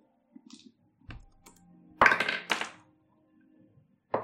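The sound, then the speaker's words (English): Dice rolled onto a table during a tabletop role-playing game's orc fight, heard as a few faint, sharp clattering knocks spread out in near silence, with a louder cluster in the middle and another hit at the end. “Jesus, stay in the box. It's the way you roll dice.”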